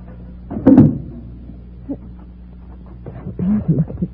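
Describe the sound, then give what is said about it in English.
A car trunk lock being opened: a louder metallic clatter, a small click, then a further bout of rattling clunks over a low steady hum. “Here, take this flashlight and hold it on the trunk lock while I open it. You're going to open the trunk? Naturally. My tools and my spare tire are in there.”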